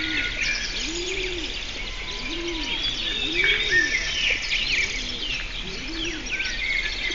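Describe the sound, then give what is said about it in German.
Birds chirping in a played recording that is said to carry a hidden, inaudible voice command; dense, continuous high twittering and trills run throughout, with low, repeated cooing calls underneath. “Dann haben wir hier einmal Vogelgezwitscher. Kann also sein, dass es bei Ihnen draußen im Garten tatsächlich sich so anklingt.”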